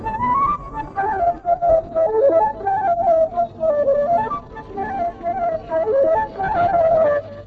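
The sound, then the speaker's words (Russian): A solo flute plays a flowing mid-register melody in breathy phrases separated by brief pauses. “Ну, скажем, например, одна флейта звучит так.”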